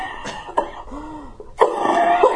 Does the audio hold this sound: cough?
yes